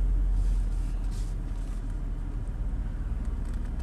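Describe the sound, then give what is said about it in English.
A noisy old car with 143,000 miles on it drives along, a continuous low engine and road rumble that stays steady and droning throughout, with no one speaking. “Sorry about the noise. That's my car. It's noisy. I mean, it has 143,000 miles on it.”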